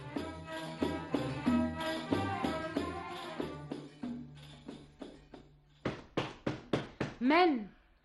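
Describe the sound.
Several sharp knocks rap on a door in a quick, close series during a drama scene, coming after people talk, with a voice rising briefly right after the knocking.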